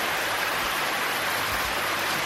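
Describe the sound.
Steady rain pours down in a dense, even hiss that stays constant from start to finish, with no voices or separate drops standing out.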